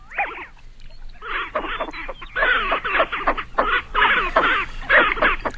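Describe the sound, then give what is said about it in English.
A medium-sized diving duck with a slight peak on the back of its head gives rough, croaking calls: one short call, a brief pause, then many raspy notes in uneven bursts, loud and moderately pitched. “Our mystery bird is a medium-sized diving duck with a slight bump or peak on the back of its head.”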